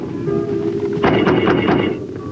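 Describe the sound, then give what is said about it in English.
A rifle butt pounds on a tank turret in snowy woods: a quick run of several heavy, hard knocks rising out of a steady low rumble, then the rumble carries on alone. “Now, Holly returns full speed through low branches laden with snow and pounds his rifle butt on the tank turret.”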